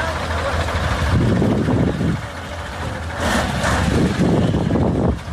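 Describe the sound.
Large trucks drive along the muddy, rutted road between Uruzgan and Kandahar, helping smaller vehicles through the mud. A steady, loud engine rumble and churning noise runs throughout, with a voice talking over it.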